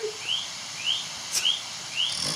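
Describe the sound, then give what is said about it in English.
Birds calling: four short, high chirps come at fairly even intervals. They are faint over a steady soft background hiss. “You frightened the bloody birds. It's like something out of the Amazon or something.”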